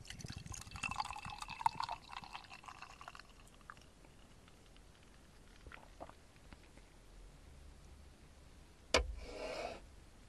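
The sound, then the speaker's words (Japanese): Drink poured into a small rounded glass: a faint liquid trickle and splash in the first two seconds, then quieter handling noises, and a single sharp knock near the end. “じゃあグラスに注いでいきたいと思います。ちょっとコロッとしたグラスです。”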